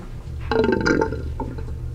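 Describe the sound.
A short, burp-like gurgle from apartment shower pipes with no water coming out, a brief bubbling rattle lasting about half a second, followed by fainter trickling hints and quiet.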